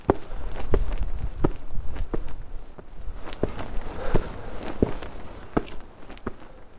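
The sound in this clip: Footsteps climb a steep outdoor staircase with patches of ice on the steps, about ten careful, evenly paced treads, each a soft crunching thud, moderately loud and with no talking.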